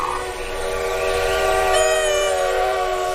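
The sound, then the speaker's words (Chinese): A train approaching, with a sustained multi-tone whistle sounding over a steady rumble, loud throughout and rising slightly toward the middle, with no voices. “哦，是火车来了。”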